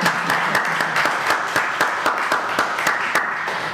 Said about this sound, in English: How about another round of applause?